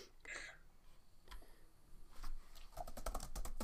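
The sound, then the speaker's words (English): Faint typing on a computer keyboard during an online group chat: many quick, irregular key clicks that grow busier toward the end, with no talk. “Whoops. I can't type. I can hear her typing.”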